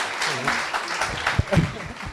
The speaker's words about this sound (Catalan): Un aplaudiment.